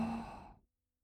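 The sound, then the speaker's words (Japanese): A single slow exhale during a guided breathing exercise, a soft breathy sigh that fades out after about half a second into silence. “吐いて、”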